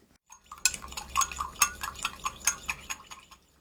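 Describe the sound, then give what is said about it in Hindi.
Metal spoon clinks as dashi stock is stirred with soy sauce and sugar until the sugar dissolves: many light, bright taps in an uneven rhythm after a short quiet start, with no voices. “इसके लिए एक cup दाशी stock में 2 बड़े चम्मच soya sauce और 1 छोटा चम्मच चीनी मिलाइए। चीनी घुलने तक सारी सामग्री को अच्छी तरह मिलाइए।”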